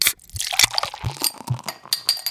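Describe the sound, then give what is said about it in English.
Opening of a cold drink: a few sharp clicks and clinks mixed with watery, pouring liquid sounds, short and moderately loud with no talk. “Before we get started, do you want to crack open a cold one with the boys?”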